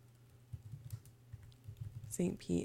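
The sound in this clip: Soft key taps from someone typing a search on a computer keyboard, a few light irregular clicks under low background hum, followed by a short burst of voice near the end.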